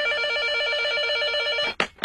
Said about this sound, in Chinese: 警察同志，麻烦你们等一下，我接个电话啊